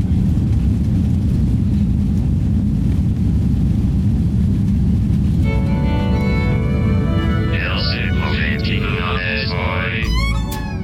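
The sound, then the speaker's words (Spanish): Inside an airplane cabin during takeoff, jet engines give a loud, steady, low roar that fills the whole clip; about halfway through, high warbling, whooping tones join above the rumble. “lo grabé de regreso a mi casa en el avión. Bien, sí, preparé para el decolaje.”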